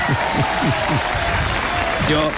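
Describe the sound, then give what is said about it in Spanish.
Audience applause for two performers on a Spanish cultural program: continuous, dense clapping with voices talking over it throughout. “Es aplauso para ellos, por la única.”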